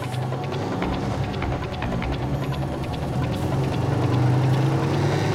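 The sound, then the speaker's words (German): A car engine rumbles steadily on a mountain road as the driver gives it more gas, growing slightly louder toward the end. “Gib mal ein bisschen mehr Gas”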